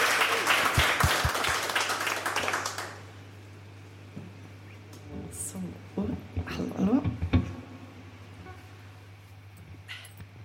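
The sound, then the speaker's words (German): A live radio studio audience breaks into a burst of loud clapping that lasts a few seconds before dying away, after which a person speaks over quiet background noise. “Also jetzt bitte nochmal einen donnernden Applaus, dann hat auch Sarife genug Zeit zum Mikrofon zu gehen”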